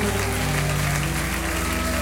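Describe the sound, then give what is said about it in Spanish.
A church audience claps during worship, giving steady, dense applause without a break, with low sustained tones underneath. “Recibe todo aplauso de tus hijos en este día, Señor.”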